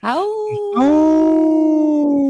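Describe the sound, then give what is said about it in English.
Wolf howls ring out loud and alone: a first call slides down in pitch, then a second rises and settles into a long, steady, sustained tone that carries to the end. “we got to howl for our sacred wolves”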